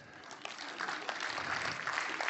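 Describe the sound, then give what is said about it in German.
Faint audience applause, a soft, continuous patter of many hands clapping that swells slightly after the first moments and holds steady. “Hand hoch. Applaus.”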